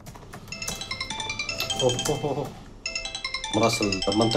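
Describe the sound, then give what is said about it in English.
A mobile phone ringtone plays a repeating electronic melody of bright tones as a call comes in, with people talking over it. “It's our source in Raqqa. He answers his phone on speaker.”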